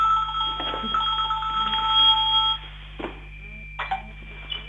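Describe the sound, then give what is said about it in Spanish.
A telephone rings with a high, electronic warbling tone that holds for about two and a half seconds and then cuts off, leaving a low steady hum and a few faint knocks. “Perdonen que hubo un llamado y alejo el teléfono.”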